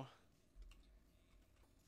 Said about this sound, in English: just currently typing real quick.